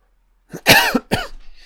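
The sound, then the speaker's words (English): A throat-clearing cough comes in a few rough, loud bursts: a short catch, then a harsh main cough and a shorter follow-up rasp trailing off. It stands alone, with no talking. “This takes a while for my throat to clear up with these commentaries, but I'll be fine.”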